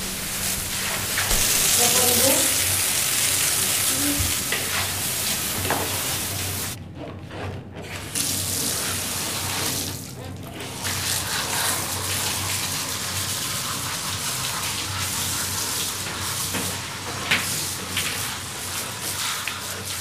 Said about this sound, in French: Vous tournez le bouton, vous avez le désinfectant qui se met dedans. Ensuite, vous passez la brosse et ensuite vous rincez en enlevant le désinfectant sur la centrale de nettoyage.